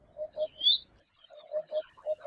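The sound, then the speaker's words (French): A common cuckoo gives its hollow, low two-note call three times in a steady rhythm. A brief high chirp from another bird cuts in after the first call. “En parent indigne, le coucou gris dépose systématiquement ses œufs dans le nid des autres oiseaux.”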